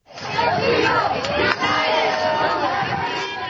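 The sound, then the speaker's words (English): Supporters cheering outside the Supreme Court as a legal team walks out: a continuous roar of many voices shouting and cheering together, loud and sustained, with crowd chatter mixed in and a brief dip midway. “In April, supporters cheered as Cecilia Wang walked out of the Supreme Court with her legal team.”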